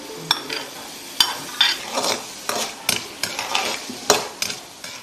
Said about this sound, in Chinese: 将切好的丁焯水，捞出，放入油锅中爆炒。